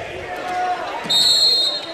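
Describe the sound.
A referee's whistle at a high school basketball game, Hillsdale against an opponent, a shrill, steady high tone lasting about a second amid crowd noise and a speaking voice.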